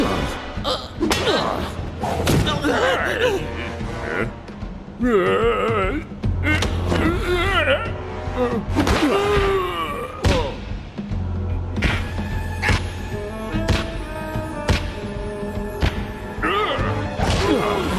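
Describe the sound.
Heavy punch impacts land during a fight: many sharp thuds and whacks in uneven bursts, mixed with voices throughout.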